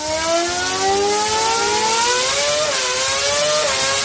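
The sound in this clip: A loud, continuous high-pitched scream of a Formula 1 race car engine revving. The pitch climbs steadily, with two brief dips near the end.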